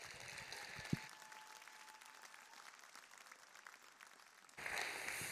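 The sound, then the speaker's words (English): An audience applauds to welcome preacher Bayless Conley at a church service. The clapping is faint, dense and steady, and it carries on evenly throughout. “So if you would, join me, put your hands together. Let's welcome Bayless Conley today.”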